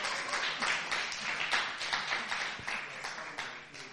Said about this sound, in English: And on that special note, I would like to let us clap for the Mujimbas for coming back to church.